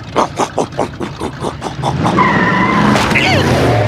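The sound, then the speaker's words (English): A supercharged riding lawn mower speeds and skids, opening with a quick run of rhythmic bursts before a sustained, loud tire squeal with a high sweeping whine takes over. “I did it! I supercharged my riding mower.”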